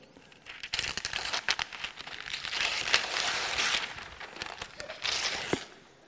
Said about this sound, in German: Darf ich das Geschenk auspacken? Willst du mir helfen?